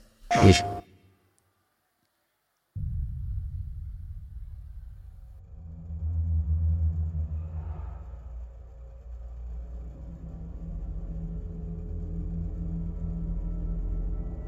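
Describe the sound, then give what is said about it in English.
Trailer audio for FromSoftware's video game Bloodborne opens with a sharp, loud hit, then falls silent for about two seconds before a low, rumbling drone rises, swells and holds steady. “Well, this is Bloodborne, basically. From Software, Miyazaki-san.”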